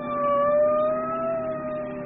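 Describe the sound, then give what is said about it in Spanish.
A police patrol car's siren wails as the car speeds through deserted streets in Tangier, a sustained tone gliding slowly up and down over a low engine rumble, with no talk. “La sirena ulula mientras el auto se lanza a toda velocidad por las desiertas calles de Tánger.”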